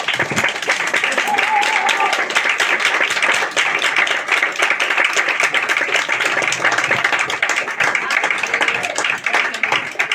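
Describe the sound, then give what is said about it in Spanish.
Audience applause at the end of a presentation on feminist struggles: loud, dense, continuous clapping that holds steady for the full stretch. “le damos un gran aplauso a Danitza”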